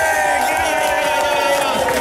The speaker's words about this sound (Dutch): Mag ik nog één keer een heel groot applaus voor Fons Verling.